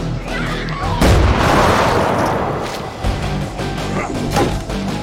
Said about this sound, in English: Shotgun. Yes, correct. That was a shotgun blast to the head.